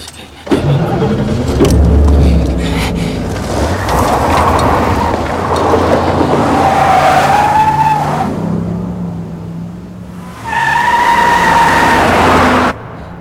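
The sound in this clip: A car engine starts and roars off at speed with skidding tires. The loud engine noise runs throughout, and long, high tire squeals rise over it in the second half before the sound cuts off abruptly.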